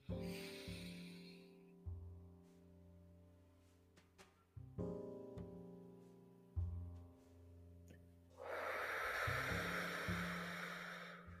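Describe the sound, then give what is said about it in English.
A group doing a 4-7-8 breathing exercise: a short breathy inhale, a long quiet hold, then a loud drawn-out whooshing exhale, all over soft sustained tones. “We're going to do a collective 4, 7, 8 breath. Okay? Ready, set, go.”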